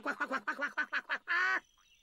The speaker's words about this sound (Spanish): Eso no era un nuevo tipo de perro, ¿verdad? No, era definitivamente nuestro pato.